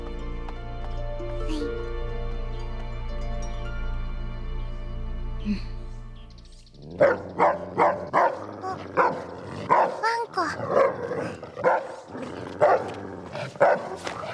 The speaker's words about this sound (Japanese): 危ないよ。そいつ誰にでも吠えるし、誰でも噛むから。